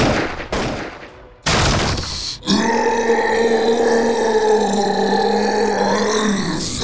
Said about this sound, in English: I can shoot a hole in the floor. Everyone stand close.